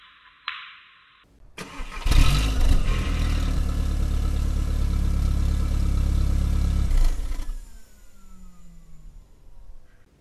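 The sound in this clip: A car engine starts and drives off from a police station. A short electronic tone comes first, then the engine catches and roars steadily for about five seconds before the sound drops away and fades.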